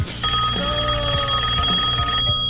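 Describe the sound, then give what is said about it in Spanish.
Ringing tone of an outgoing telephone call, a steady, continuous sustained tone with bright layered overtones. It holds loud and even for the whole stretch, with no voices over it. “lo voy a llamar a Umbi”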